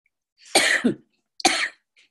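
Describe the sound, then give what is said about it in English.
A horrible cough: a harsh double-burst cough, then after a short pause a second rough cough, both loud and alone. “I've got this horrible cough that kicks in every time I want to say something.”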